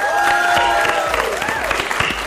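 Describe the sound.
Studio audience applause welcoming a guest onto a Mexican science program, brisk steady clapping that fills a couple of seconds.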